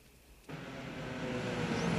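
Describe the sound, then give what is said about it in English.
Car pulling up in a sunny side street near a footbridge over water: faint background hush, then a sudden rise in broad engine and road noise that keeps swelling gently. “Now, Andrea's car pulls up in a sunny side street.”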